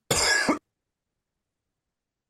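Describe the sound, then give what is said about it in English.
A single harsh cough from someone who is unwell and bringing up phlegm, a short loud burst followed by silence. “so sorry, I'm coughing up crap today.”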